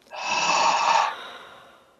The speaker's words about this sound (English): so again, you breathe in through your nose. And then a little more. And then out through your mouth.